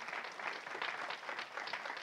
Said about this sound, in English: Give her one more hand clap.